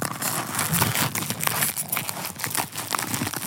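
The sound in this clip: A plastic package crinkles and crackles as it is cracked open right up against the microphone, giving a dense, steady rustle with no pauses for the whole stretch and no voices.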